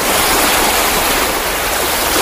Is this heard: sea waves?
yes